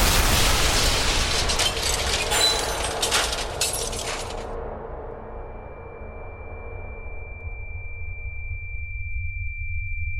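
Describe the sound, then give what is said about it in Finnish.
A lock breaks as a shoe is kicked hard beside the keyhole: about four seconds of harsh, crackling, splintering crashes, then a fading rumble under a steady, high, ringing tone. “Lyö voimalla kenkänsä avainpesän viereen ja lukko murtuu.”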